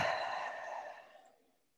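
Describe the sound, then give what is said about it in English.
A deep breath during a guided mindfulness exercise, heard as a single soft, breathy exhale that starts strong and gradually fades to silence over about a second and a half. “Let's take a nice, deep, mindful breath in and out.”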